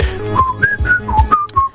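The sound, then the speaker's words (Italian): A short whistled tune, regarded as a symbol of former Yugoslavia, plays as a handful of bright, clear notes that step up and down in a lilting melody. It is heard alone, with no talk. “questo fischiettio è uno dei simboli dell'ex Jugoslavia, direi proprio una, non lo so perché, però è stato usato in mille occasioni, in mille trasmissioni”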